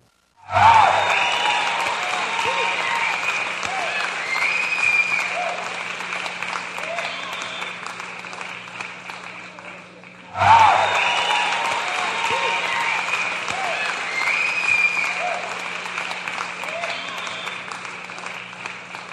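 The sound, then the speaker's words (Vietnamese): Audience applause rings out at the end of a stage performance, two long bursts of dense clapping, each starting loud and gradually thinning, with a short lull between them. “Tiếng vỗ tay rang lên tứ phía.”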